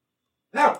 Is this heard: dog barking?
yes